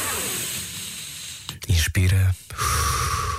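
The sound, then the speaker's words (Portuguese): A long, airy breath hisses steadily, breaks off into a short voiced sound, and then turns into another rushing breath at the end: a deep breath in and out. “Bom, vamos respirar fundo durante uns segundos.”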